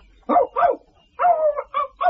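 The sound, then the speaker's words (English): A small Yorkshire Terrier barking: five sharp, yappy barks in an uneven rhythm, the third drawn out into a longer, whining yelp. “The dog was a Yorkshire Terrier with a slight lisp, but lively and full of beans.”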